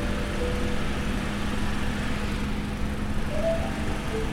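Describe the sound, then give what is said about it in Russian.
Low, steady rumble of a truck engine as the truck drives along, constant and fairly faint throughout with no breaks. “Глеб едет за рулем своего грузовика.”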